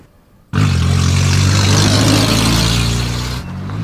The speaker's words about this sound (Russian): По улицам городка мчится микроавтобус.